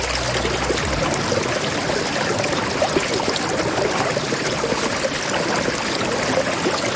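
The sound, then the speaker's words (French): Plenty of water flows steadily, making a continuous, even rushing and bubbling noise with no breaks. “on a de l'eau, beaucoup d'eau.”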